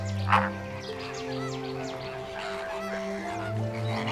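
Honking calls from a flock of flamingos, one louder goose-like honk near the start, then many fainter overlapping calls over a steady low drone.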